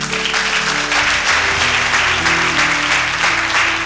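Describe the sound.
Dense, steady applause from an audience during a church service, loud and continuous throughout, with sustained low musical tones holding underneath the clapping.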